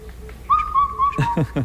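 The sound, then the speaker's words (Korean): A black-backed cuckoo gives a clear whistled call: a held note followed by three quick, downward-sliding notes, over faint background noise. “어떤 민요의 선율을 연상시키는 검은 등 뻐꾸기 울음소리 다시 한번 들어보시죠.”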